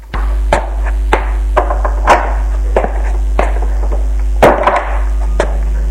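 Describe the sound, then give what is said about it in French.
Heavy, labored footsteps of someone climbing stairs with weary legs: a slow, steady series of loud thudding steps over a constant low hum, with no voices. “Il monte les escaliers avec peine. Ses jambes sont lourdes.”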